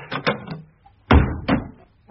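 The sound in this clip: Opening of a cupboard door under the stairs, heard as a run of knocks and thumps: three quick lighter ones, a pause, then two heavier, louder thuds.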